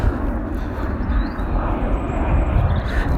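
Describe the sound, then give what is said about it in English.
An airplane flies overhead beneath the takeoff route from Manchester Airport, producing a steady, loud, low roaring rumble with a faint higher whine, unbroken throughout and with no voices. “I don't know if you can hear that, but there's a plane hovering above my head, because I'm under the what's it called? The airway?”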